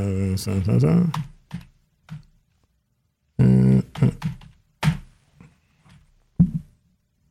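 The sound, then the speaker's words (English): Keyboard typing in short bursts of clicks, mixed with a voice that makes vocal sounds between the bursts, leaving long quiet gaps. “Let me see if I can type this.”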